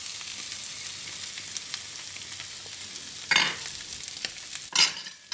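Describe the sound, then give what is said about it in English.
Chinese sausage, mushrooms and dried shrimp stir-fry in a pan with a steady, hissing sizzle, and near the end two louder bursts of stirring cut through the frying noise. No voices are heard. “just gonna stir that around and just like stir fry it for around 2 to 3 minutes”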